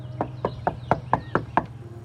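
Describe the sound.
Someone knocks on a house door seven times in a steady, even rhythm. Each rap is crisp and moderately loud over a faint low hum.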